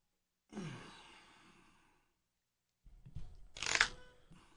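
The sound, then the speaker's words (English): A deck of playing cards is cut during a card trick, heard as two brief, soft papery bursts separated by a pause, the second ending in a sharper snap. “Why am I cutting the deck? What am I doing? That's just part of the show, I guess.”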